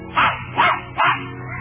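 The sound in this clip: A dog barks three times in an even, measured rhythm, as if counting to three, each bark short and moderately loud with no talk.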